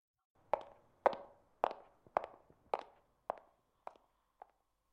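Footsteps of a woman walking away: eight evenly spaced, sharp steps that grow steadily fainter, heard alone with no talk.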